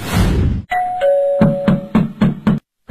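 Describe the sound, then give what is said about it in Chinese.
A doorbell at the front door of a family home gives a two-note chime, a higher tone then a lower one. A quick series of loud, sharp knocks on the door follows, ending in silence. “按门铃就别敲门了，他我们家那门可还要呢。”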